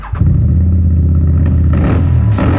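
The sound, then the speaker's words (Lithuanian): The engine of a Vouch Street Adventure motorcycle or scooter revs, a loud, steady low drone with rattling harmonics. Two sharper surges of throttle come near the end. “Tai Vouch, tavo naujas kelionių draugas. Street Adventure motociklas ar motoroleris.”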